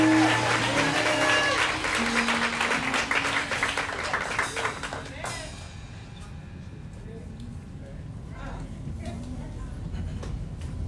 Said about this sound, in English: Can you give it up for now, Pastor? The Andre Robinson of New Beginnings Church. Welcome the man of God.